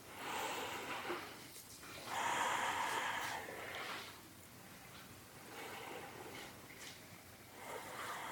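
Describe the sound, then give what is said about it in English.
Slow breathing in and out through the nose during a seated meditation: soft, airy rushes that swell and fade in an unhurried rhythm, with no talking. “breathe in and out through the nose”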